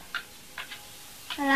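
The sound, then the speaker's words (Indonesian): A clock ticking gives a few soft, short ticks at uneven spacing, faint and brief, before a voice starts to speak. “Ini suara jam.”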